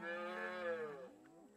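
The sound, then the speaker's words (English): A calf moos once in a single drawn-out, faint call with rich harmonics. The tone wavers slightly in pitch near its end. “Look, there's a baby cow, said Jane.”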